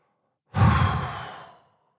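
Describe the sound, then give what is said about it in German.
A single loud exhale during a breathing exercise, a breathy, sighing rush of air that starts abruptly after a short silence and tapers off over about a second. “Dann atme laut aus.”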